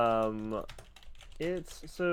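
Keyboard typing as someone writes: a few quick, light clicks in the middle, set between longer voiced sounds at the start and end.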